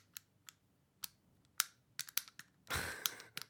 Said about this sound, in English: I'm playing with a fidget cube.